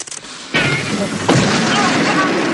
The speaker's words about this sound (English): A moment later, and he explodes again.